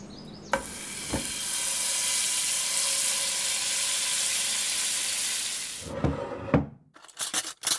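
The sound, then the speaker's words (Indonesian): Green beans stir-fry in a pan with a loud, steady sizzle and hiss lasting several seconds, opened by a couple of clanks. The frying then cuts off, followed by a few clattering knocks of utensils. “Nah, udah siap nih tumis buncis kesukaan Mas Pandu.”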